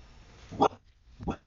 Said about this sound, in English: I'm so sorry for the dog. There's someone who brought their dog much too close to the window.